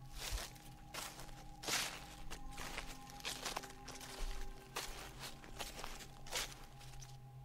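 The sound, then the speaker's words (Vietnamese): Footsteps walk outside a door: many soft, irregular steps, faint and continuous over a low steady hum. “bên ngoài cánh cửa tôi nghe tiếng bước chân đi”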